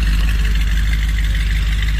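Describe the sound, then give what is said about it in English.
A 1966 Corvette engine rumbles as the car drives out of a driveway, a loud, steady, deep drone that holds without a break for the whole two seconds. “This is what it sounded like, by the way, when he was driving me out of the driveway.”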